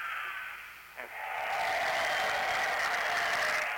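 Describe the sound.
Canned applause sounds after a button is pressed: following a brief lull, a steady wash of clapping rises and holds, faint and somewhat thin in tone.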